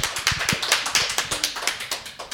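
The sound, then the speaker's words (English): Steady, rhythmic hand claps from a small audience welcoming a guest who has just arrived: sharp, evenly spaced slaps that repeat throughout, with no voices. “So you guys should clap for Keith.”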